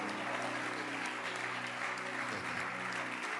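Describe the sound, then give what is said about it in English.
A worship audience claps for its bishops, a loud, dense and even applause that holds steady for a few seconds over a low, faint held tone. “clap your hands again, this time for our bishops.”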